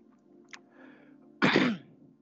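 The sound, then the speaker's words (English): A person choking gives one loud, harsh cough or throat-clearing burst after a quieter breathy rasp, over a faint, steady low hum. “excuse me, just choking here”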